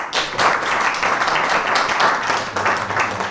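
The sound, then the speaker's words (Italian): An audience applauds a comedian at a comedy night. Dense, steady clapping runs the whole way through at a fairly loud, even level. “un applauso così per la Giorgio Magri”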